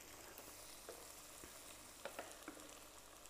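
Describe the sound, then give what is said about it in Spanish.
Butter melts and fries in a pan for French toast, giving a soft, steady sizzle with a few tiny pops and crackles, faint throughout. “voy a, echar un poco más de mantequilla porque la mantequilla nunca sobra”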